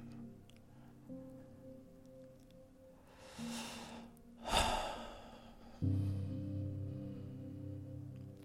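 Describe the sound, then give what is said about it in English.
A deep breath drawn in slowly and then let out in a louder, rushing exhale, both set against soft, sustained musical tones. “let's take a deep breath and relax.”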